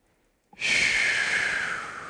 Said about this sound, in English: As we take a deep breath, just let it all go.